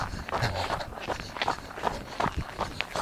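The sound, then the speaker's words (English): Footsteps of a jogger running fast past on a trail, a quick, uneven series of light footfalls that stays fairly even in loudness throughout. “Oh, she had her earphones in. She was running fast, too.”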